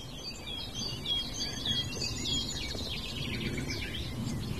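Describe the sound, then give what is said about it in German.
A nightingale sings in the background, faint, varied chirps and trills running over a low, constant rumble. “Und immer wieder so plätschernder Gesang im Hintergrund. Einmal ist die Nachtigall, die sehr markant ist.”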